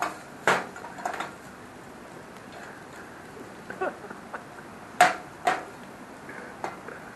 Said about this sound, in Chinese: 咁爆香咗啲腸仔同辣椒，咁啊落蛋啦，有蛋殼啊！